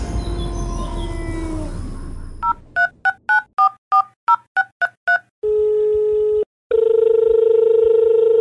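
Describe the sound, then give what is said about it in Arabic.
Telephone dialing tones placing a call: a rapid string of beeping keypad tones, then two long, steady tones separated by a brief gap. “دعونا نتصل بالسيد رامي زيديا”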